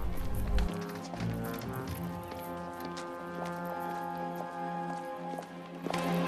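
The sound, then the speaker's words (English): A horse-drawn carriage trundles past, its hooves sounding as soft repeated clip-clops under a sustained musical score, quiet overall with no voices. “a horse-drawn carriage trundles past”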